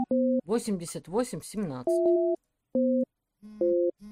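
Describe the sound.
Telephone tones sound while a number is dialed: a few steady electronic beeps of differing lengths and pitches. A stretch of voice-like harmonic sound comes between the early beeps.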